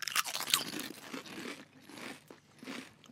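Truffle-flavoured potato chips are crunched and chewed. Two sharp, loud crunches of the first bites come first, then a series of softer, rhythmic chewing crunches that rise and fall, with no talking.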